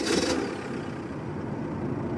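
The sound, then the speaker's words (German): Steady engine and road rumble from a bakery van driving along narrow village roads, a continuous even drone with no clear breaks. “Über ganz kleine, schmale Straßen fahren wir jetzt hier über die Dörfer. Fast zu schmal für den Bäckerwagen.”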